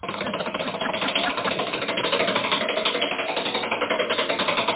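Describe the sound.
Rapid ratchet clicking from a spinning prize wheel, a dense, steady stream of ticks that runs at an even loudness through the whole stretch without slowing.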